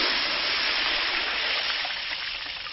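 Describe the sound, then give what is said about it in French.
Palm oil thrown into water during soap making gives a continuous rushing hiss, broad and steady, fading slightly toward the end, with no voices. “Ça, c'est l'huile de palme jetée dans l'eau pour la fabrication de savon.”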